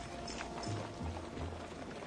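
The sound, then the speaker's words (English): Faint horse hoofbeats as two riders approach each other on horseback, surrounded by a Comanche tribe. A soft, steady clip-clop sits under a low noisy rumble. “Both men approach each other on a horse, with the Comanche tribe surrounding both men.”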